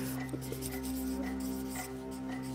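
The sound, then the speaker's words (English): Handwriting as someone writes an answer during a mother-daughter challenge game: faint, scratchy strokes come in short bursts over a steady low electrical hum. “Excuse my handwriting. Okay. How much did you write?”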